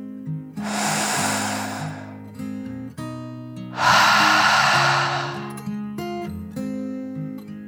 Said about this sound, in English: Finally, they took a third deep dragon breath, in and out.